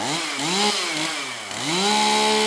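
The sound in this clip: Chainsaw engine running while being tested at a wildfire equipment cache, loud and continuous, its pitch wavering, dipping and then climbing again as the throttle changes, with no talk.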